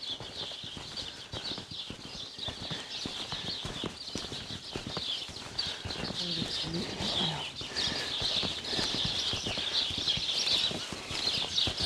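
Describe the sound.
Horse hooves clip-clop at a steady walk on a foggy Sunday ride, with many even hoofbeats throughout, while birds chirp continuously above them.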